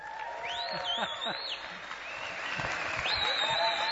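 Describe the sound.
An audience at a church gathering applauds to welcome a speaker, with dense, steady clapping and high cheering whoops rising over it.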